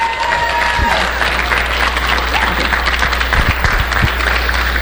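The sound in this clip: A church audience applauds to welcome the youth pastor to the pulpit on a Sunday morning, a loud, dense, steady wash of clapping from many hands that lasts the whole clip.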